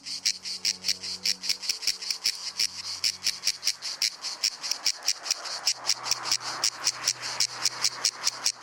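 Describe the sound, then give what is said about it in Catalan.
Cicada (Cicada orni) singing in the summer heat of Menorca's woods and fields: a loud, steady, high-pitched buzzing broken into many rapid, evenly spaced pulses that carry on without a break. “La xigala és un insecte estival per excel·lència. De nom científic Cicada orni, és l'únic representant del seu gènere i família a les Illes Balears.”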